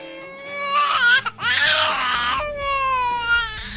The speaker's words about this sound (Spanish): Este sonido que están escuchando cada vez se oye menos en España. Es un niño que acaba de nacer, con todo lo que significa una nueva vida.